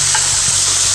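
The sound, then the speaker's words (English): Burgers sizzle on a barbecue with a steady, bright frying hiss that stays loud and even from start to finish, over a faint low hum. “That sizzling sound you're hearing is me barbecuing.”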